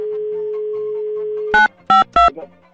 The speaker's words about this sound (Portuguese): Deixa eu ligar pra mais um aqui.